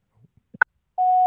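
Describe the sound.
Telephone call tone on a call that fails to get through: a few faint clicks, then a steady, single-pitched tone that starts abruptly and holds loud and even to the end.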